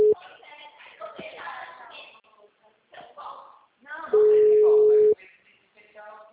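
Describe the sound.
Ringback tone of an outgoing telephone call: a steady mid-pitched beep lasting about a second, with a brief tone at the start, heard between stretches of voices.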